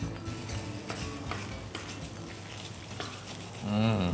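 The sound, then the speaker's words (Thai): Curry paste sizzling as it is stir-fried in oil until the oil separates, before beef goes in, a steady crackling hiss throughout, with a voice cutting in briefly near the end. “ผัดพริกแกงให้แตกมัน ใช่ค่ะให้กลิ่นไม่ใช่แต่ว่ามันมีน้ำมันข้างในของเขาเราก็เอาให้ไขมันเขาออกมาให้มันดูสวยงามเฉย”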